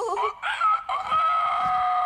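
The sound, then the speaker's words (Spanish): A rooster crowing on a farm in one long, drawn-out call with a strained, wavering, high pitch that holds for about two seconds. “Ese gallo ha cantado toda la mañana.”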